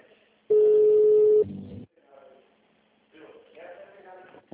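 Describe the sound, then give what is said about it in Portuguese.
Telephone tones sound as a call is transferred to an agent: a loud, steady, single-pitched beep, then a brief lower buzzing tone, followed by quieter muffled voice sounds. “Vou transferir sua ligação para um de nossos colaboradores. Por favor, aguarde.”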